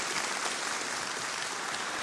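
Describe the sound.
Audience applause at a church service welcomes a couple onto the stage, a steady wash of dense clapping that holds evenly from start to end.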